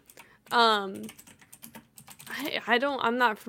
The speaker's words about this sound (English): Oh, wait. I did not type that right.